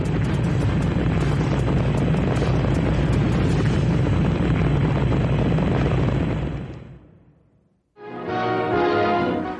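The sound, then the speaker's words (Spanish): A rocket engine roars at the lift-off of a moon rocket: a loud, dense, steady rumble lasts about six seconds and then fades away, followed by a burst of different rough noise. “Despegamos. Estamos despegando.”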